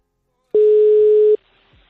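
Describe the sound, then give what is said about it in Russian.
A telephone line tone after dialing a number: one sustained mid-pitched beep that lasts under a second and cuts off abruptly, followed by near silence. “Опа, пошёл гудок, пошёл.”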